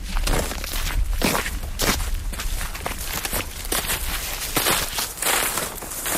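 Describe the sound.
Footsteps walking through a forest on the eastern edge of Łódź where trees are being felled: a steady run of crunchy, rustling steps on the forest floor, with no one talking.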